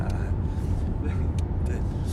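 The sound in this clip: A car driving along a road in Dornod, Mongolia, with a continuous low rumble of engine and road noise and people talking over it throughout.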